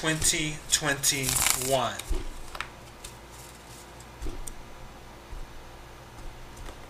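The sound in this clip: Tarot cards being shuffled for a reading: a voice speaks briefly at the start, then a soft, steady papery rustle and riffle continues quietly on its own.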